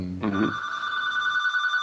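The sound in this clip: A telephone rings with an incoming call, a steady, high electronic ringing tone that holds throughout after a brief voice at the very start.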